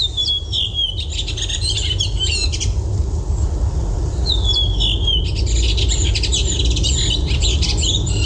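Thrush song recorded on a phone: several bursts of high, fluttering chirps and trills separated by short gaps, over a steady low rumble.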